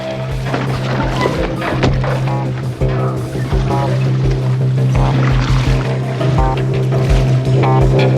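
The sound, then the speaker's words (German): A boat being paddled back across water, with repeated splashing paddle strokes and sloshing water over a steady low drone. “Also, wir paddeln jetzt zurück zu den Hütten, um keinen Verdacht aufkommen zu lassen.”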